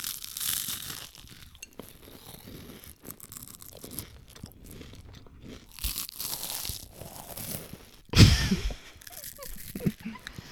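Crunchy chewing of fingernails: many dry crunches and crackles in an irregular rhythm, with one loud sharp crunch near the end.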